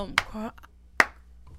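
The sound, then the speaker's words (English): A slow clap from the audience: sharp, isolated hand claps spaced nearly a second apart, with a short burst of speech between the first two and quiet gaps around them. “What was that clap? Y'all make a slow clap. Y'all throw me all off.”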